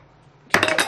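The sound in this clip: Dice rolled onto a table during a game clatter in a short, bright burst of rapid clicks and knocks after a moment of near silence.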